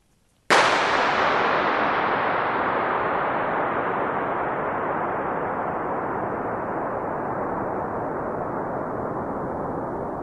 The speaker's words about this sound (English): The sound is a gun going off in an oil storage tank, right? Yeah, it's just a huge concrete vault.